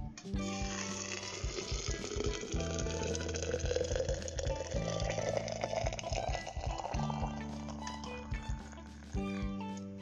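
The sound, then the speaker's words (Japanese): Hot water pours steadily onto 11 grams of barley tea and 4 grams of black tea leaves, about 800 cc in all, a continuous splashing stream whose tone rises as the vessel fills. “麦茶11グラムと紅茶の葉っぱを4グラム入れましたここに、えー、お湯を注いでいきます”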